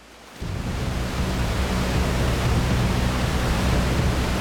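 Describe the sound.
A large river rushes with a loud, steady roar. The dense wash of water noise starts abruptly and holds without letup, with no voices.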